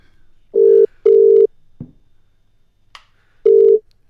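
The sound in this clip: A telephone ringing tone plays on a call that goes unanswered. A loud, steady, mid-pitched double burst is followed by a pause with a couple of faint clicks, then another burst starts the next ring.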